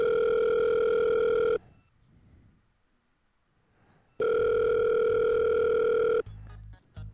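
A telephone call rings out with two long, evenly pitched ringback tones separated by a quiet pause, followed by a few faint clicks and shuffles near the end.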